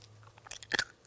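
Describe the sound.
Cooked, crispy chickpeas are bitten and chewed, giving a few soft bites followed by a louder, crisp crunch, faint overall, with no talking.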